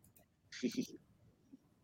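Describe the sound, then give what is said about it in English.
Faint keyboard clicks as a search is typed on a computer using Control F. A few quick, soft key taps come in a short burst with a brief light hiss, then one more isolated click. “this is how you do a control F and he type Drake”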